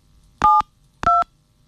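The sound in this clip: Touch-tone dialing beeps sound as a telephone number is dialed to call a radio listener: two short, evenly spaced dual-tone beeps, each about a fifth of a second long, clear against near silence.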